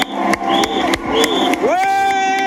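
A cycling fan's excited shouts and whoops as a Tour de France stage passes through Cadillac: loud voiced cries in short bursts, then one rising whoop that swells and is held steady to the end.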